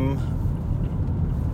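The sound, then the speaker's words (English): Steady low rumble and road noise from inside a car while driving, continuous and even in loudness for the whole stretch, with a dense low-pitched hum under a softer hiss. “I am in the car on my way to dinner with family.”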